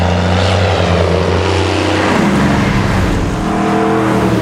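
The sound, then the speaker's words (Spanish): An airplane flying overhead, heard as a loud continuous engine drone with a low, propeller-like hum beneath a broad roar that stays steady throughout, with no voices. “Sí, yo creo que es un avión.”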